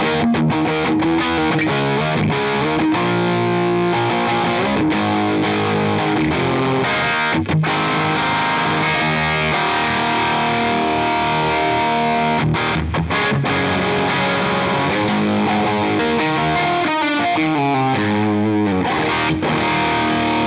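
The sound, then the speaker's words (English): An electric guitar plays through a fuzz overdrive pedal with its flavor knob turned up, giving a thick, buzzy, saturated tone. Chords and notes run continuously and loudly throughout, with no talking. “You hear how it kind of gives up a little? Does that fuzz thing a little bit? Yeah. I'm going to turn up the flavor, which is definitely like a tone.”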